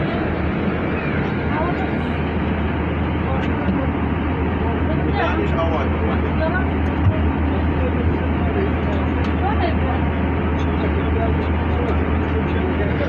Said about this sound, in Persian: من تو اتوبوسیم